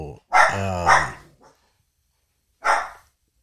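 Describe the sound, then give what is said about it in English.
Dogs bark in a few loud, separate barks, the first pair close together and drawn out with a slight growling edge, then a single sharp bark after a pause of near silence. “sorry, dogs are barking.”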